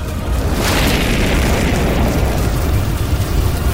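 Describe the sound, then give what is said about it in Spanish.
A roaring burst of fire, a wall of flame rising, comes through as a loud, dense rumble with a boom-like weight. It holds steady for the whole stretch without letting up, and no voices are heard. “Una muralla de fuego se levantó, envolviendo el cuerpo de Aguilar”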